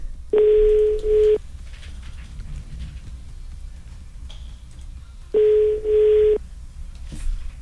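Ringback tone of a telephone call being placed: two ringing bursts, each a pair of quick buzzing pulses, separated by a long quiet pause over low background hiss.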